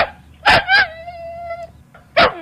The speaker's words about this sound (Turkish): Bu havlama hangi köpeğe ait olabilir?